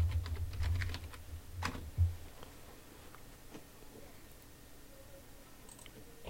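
Computer keyboard typing as a search is entered, a quick run of clicky keystrokes in the first two seconds, then only faint scattered taps.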